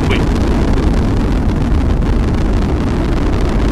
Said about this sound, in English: The Atlas rocket carrying OSIRIS-REx has gone supersonic.